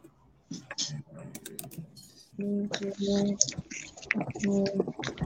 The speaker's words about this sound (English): Why not put that in the notes? Let me type that right now.